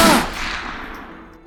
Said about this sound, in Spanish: Es Severino, de frente, al pelotón de fusilamiento, después de rechazar la venda en sus ojos, el pecho hinchado, para recibir las balas de pie